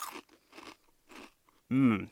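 Crunchy bites of plain chocolate-flavored Chex cereal, eaten without milk. A few separate crisp crunches come in a loose rhythm, and a short voiced sound follows at the end.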